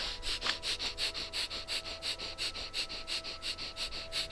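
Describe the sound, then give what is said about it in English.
Breath of fire, a yogic breathing exercise, is performed through the nose: many rapid, forceful exhalations, soft and hissing, in a fast, even rhythm, with no talking. “So let's just do the breath of fire for a couple of moments and then draw the energy up to our third eye. Here we go, breath of fire.”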